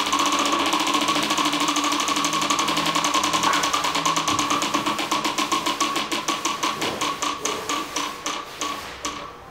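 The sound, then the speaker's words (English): A prize wheel spinning: its pointer rattles against the pegs in a rapid blur of clicks, then the ticks spread out and slow steadily as the wheel winds down, with no talk. “let's spin the wheel and find out.”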